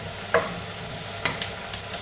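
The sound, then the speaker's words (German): A spoon scrapes through risotto in a pan in a few short stirring strokes over a steady low sizzle, with no talking. “Risotto wie immer, ich habe es gesagt, immer umrühren, immer umrühren, immer umrühren.”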